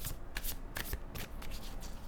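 Cards in a deck being shuffled: many quick papery riffles and rustling bursts in an uneven run, fairly soft and with no voices.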